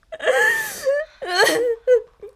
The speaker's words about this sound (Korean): 아이 정신 사나우니까 좀 그만 울어.